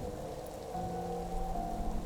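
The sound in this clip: Heavy afternoon rain falling on a deserted village road, a steady, dense wash of drops heard alone without voices, keeping an even, moderate loudness throughout.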